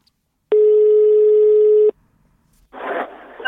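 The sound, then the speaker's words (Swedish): Ringback tone on an outgoing telephone call: a single sustained, steady electronic tone lasting just over a second, followed by a brief burst of noise. “vi ska ringa upp Lundapolisen Magnus Björn Bensén”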